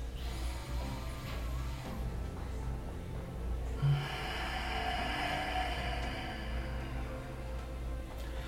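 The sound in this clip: Deep breathing in and out during a guided relaxation exercise: slow, soft, airy breath noise, with a longer, fuller exhale filling the second half.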